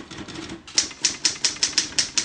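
Crisp typewriter keystrokes from a 1920s Roy machine under repair at a typewriter repair shop: a few soft clicks, then about eight sharp, evenly spaced clacks in a steady rhythm.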